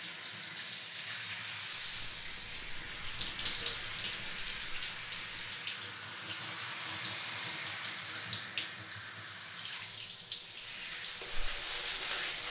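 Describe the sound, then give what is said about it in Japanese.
Hot water rinsing a boy's hair during a hair wash: a soft, steady hiss of running water with light splashing patter, quiet and continuous throughout. “おお、髪、お湯でいっぱい流されてる。”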